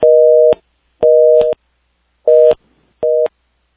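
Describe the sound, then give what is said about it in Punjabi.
A telephone busy tone sounds after a dropped call line: four steady, loud beeps of a steady two-note hum, each well under a second, separated by silent gaps and edged by faint clicks. “Brijmohan ਸਾਹਿਬ ਜਿਹੜੀ line ਹੈ ਉਹ drop ਹੋ ਗਈ”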